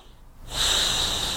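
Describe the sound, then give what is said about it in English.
A big deep breath taken during an eyebrow-tapping exercise: a quiet start, then a loud, long, hissing inhale that holds to the end. “tapping the eyebrows, big deep breath”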